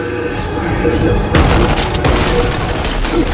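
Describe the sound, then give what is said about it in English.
Gunfire erupts in a courtyard as two people open fire, a dense wash of sharp bursts and booms that jumps louder partway through and keeps going steadily to the end. “Han enters the courtyard. Rick and Alex open fire.”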